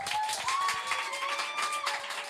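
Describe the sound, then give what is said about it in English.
An audience at a live show applauding on request before the host begins, a dense, steady patter of clapping that holds at an even level throughout. “Faudrait que tout le monde applaudisse right now. Applaudissez, là.”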